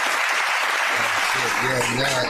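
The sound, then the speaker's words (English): A round of applause, a steady dense clapping texture throughout, with a voice talking over it from about halfway through. “I'll take this joint as the round of applause”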